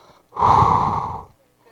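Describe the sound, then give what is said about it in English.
A single strong breath is blown out onto someone, like a deliberate ritual breathing on people. It is a loud, airy exhale lasting about a second, heard alone. “And he breathed on them the same way that God had taken Adam”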